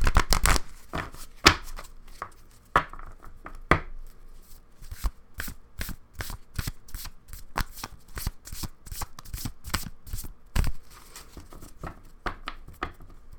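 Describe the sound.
A deck of inspiration cards is shuffled by hand, giving many crisp, papery snaps and clicks in uneven bursts. A few louder slaps stand out among them, with no voices.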